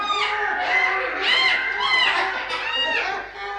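Many colourful birds in a greenhouse fill the air with dense, overlapping chirps and warbling trills, high-pitched and continuous throughout.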